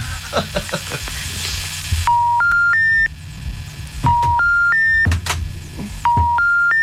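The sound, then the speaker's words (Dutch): Keypad tones from a telephone number being dialed come in three quick bursts. Each burst holds three steady beeps stepping upward in pitch, with short gaps of clicks and faint noise between them. “Volgens mij heb je een verkeerd nummer gebeld, hoor.”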